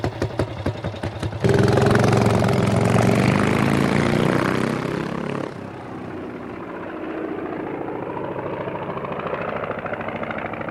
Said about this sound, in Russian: прошу разрешения на взлет. Разрешаю.